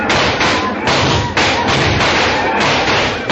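Gunfire from a volley fired on command during a skirmish with Apaches: many loud, dull overlapping shots and thuds in a dense, continuous barrage with a muffled tone.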